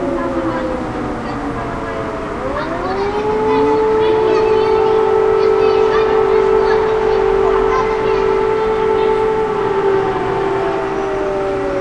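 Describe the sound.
Air raid siren wailing in Kursk, Russia: layered tones rise in pitch, then hold a loud, steady, sustained wail to the end.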